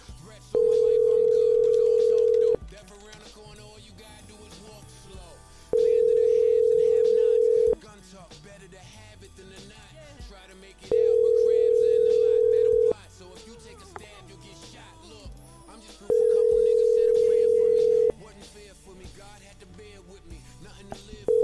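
Telephone line tone heard while calling a number: a steady, low, pure tone sounds in four bursts of about two seconds each, separated by roughly three-second gaps, with the start of a fifth at the end.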